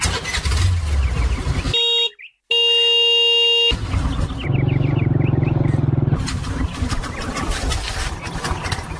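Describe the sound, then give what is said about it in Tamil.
Car engine and road traffic, a steady low rumble broken by a long, sustained horn blast early on, then continuing engine and traffic noise with no clear stop. “அப்ப வாப்பா வாப்பா, உடனே கிளம்பலாம், வண்டி எடுப்பா.”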